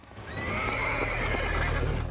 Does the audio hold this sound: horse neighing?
yes